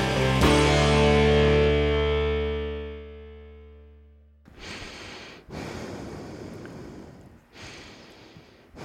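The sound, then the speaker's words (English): Heavy breathing straight into a microphone: a few loud, rough, hissing breaths in long bursts. They come after a long musical chord that slowly fades out. “I'm just going to breathe into the microphone like that all the time.”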